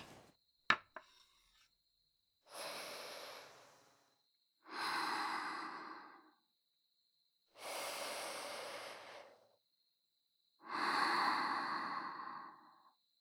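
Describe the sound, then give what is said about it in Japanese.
Deep, slow inhaling of smoke: four long, breathy draws separated by silence, preceded by a sharp click. “深く煙を吸うと、心が落ち着いてとろんとした気分になりますよ。”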